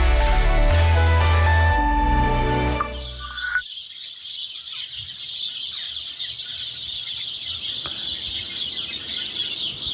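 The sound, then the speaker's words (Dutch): Sparrows chirping in a busy, continuous chorus of high, bright tweets that overlap without pause, picking up after a few seconds and staying at a steady moderate level to the end. “Tjilpen. Dat is toch misschien wel de meest passende omschrijving van het geluid dat mussen maken.”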